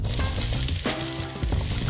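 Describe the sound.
Chopped pumpkin frying in a pan with zucchini, pak choi, mushrooms and other vegetables gives a loud, steady sizzle, broken by a few scraping knocks of stirring.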